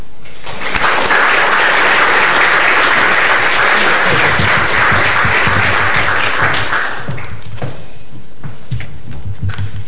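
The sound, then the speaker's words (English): Applause from a lecture audience welcoming the speaker at an LSE lecture in the Ralph Miliband series: dense, steady clapping for about seven seconds that then thins into scattered claps. “please therefore join with me in giving her a particularly warm welcome.”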